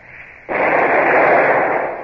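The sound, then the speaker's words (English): A warship's cannon fires a single warning shot across another ship's bows: a sudden loud boom that swells into a sustained, rumbling roar. “Well, fire a shot across her bows. Number two gun. A single shot across the bows. Fire!”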